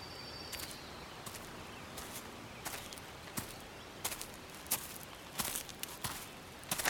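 Footsteps of someone hiking through a park: many faint, irregularly spaced crunching steps over a quiet outdoor background.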